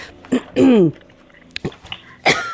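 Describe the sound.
Someone coughs and clears their throat after a cookie crumb catches in it. A few short, rasping bursts come irregularly, one longer and louder than the rest.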